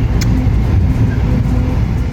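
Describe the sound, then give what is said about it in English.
Steady low engine rumble and road noise from a bus driving through the streets on the way to Sayulita, a continuous dense drone of even loudness without any voices. “we decided to take the bus to Sayulita, which basically costs like a nickel”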